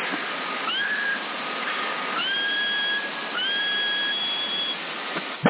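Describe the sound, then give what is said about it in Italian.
A person whistles over CB radio near Sassari: a few long, steady whistled tones, each opening with a quick upward glide, carried over constant hissy radio noise. “Sì, guarda, se provi a fischiare, secondo me arrivi a tipo 8 e 3 quarti, da quasi 9, prova un po' a fischiare.”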